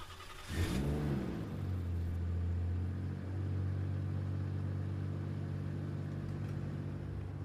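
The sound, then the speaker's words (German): A car pulls away and accelerates on a long drive. The engine rumble swells and its pitch climbs, then settles into a loud, steady drone, with a second brief rise partway through. “Fahren wir mal los.”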